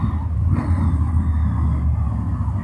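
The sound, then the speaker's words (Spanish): Low, steady engine rumble from car engines being started outside for street racing, a deep continuous drone holding even loudness throughout with no clear separate revs. “perdonen ustedes que aquí ya andan echando carreras, piensan que... No, están encendiendo...”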